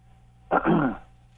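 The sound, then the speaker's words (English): A single short throat clearing from a man calling in to a radio morning show, one rough, gravelly burst about half a second long, heard on its own against a quiet phone line. “Not sure how I should take the clearing of the throat, if that's a good thing or a bad thing.”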